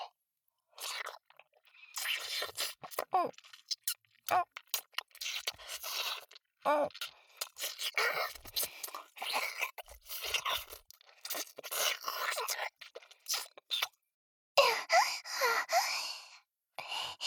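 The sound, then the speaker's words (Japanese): A voice imitates loud licking and sucking, a long, fairly faint run of wet smacking, slurping and breathy sighing sounds broken by short pauses. “私のおっぱいすごいいやらしい音立てて舐めて吸ってた。真似してあげようか。こうして、”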